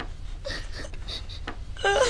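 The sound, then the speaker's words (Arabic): An eight-year-old boy cries in short, strained sobs and whimpers at a vaccination. The sobs come in a few broken bursts over a low background hum, and a harsher wail rises at the end. “اهدأ يا بني، مالك؟ لا عليك، ها قد انتهى الأمر، لماذا تبكي؟”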